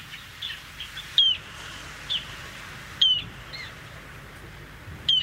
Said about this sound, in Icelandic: Hljóðið í þessum fugli er svona...